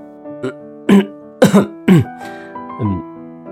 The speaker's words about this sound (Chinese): 略有些尴尬地抬起手，轻声咳嗽两声